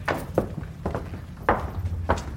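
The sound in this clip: Footsteps of people walking: a handful of soft, low thuds at uneven intervals, moderately faint against a quiet, muffled background.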